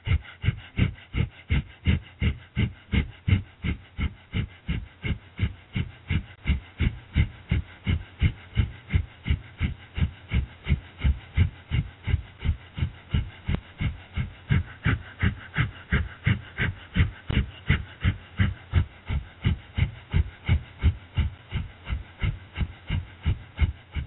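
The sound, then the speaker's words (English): Rapid breath of fire yoga breathing: many sharp, even nasal exhalations pulse about twice a second in a steady unbroken rhythm, moderately loud and alone. “Continue breath of fire for another minute.”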